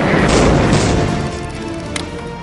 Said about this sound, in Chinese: 二七四艇立即停止狂奔，向后退去。并利用其前主炮进行连续射击。